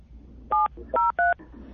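Three short dual-tone phone keypad beeps dial a shop's number while driving; the first tone stands apart and the last two come close together, clear and steady in pitch over a low, continuous background rumble.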